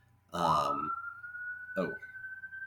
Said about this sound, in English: siren just went off, right?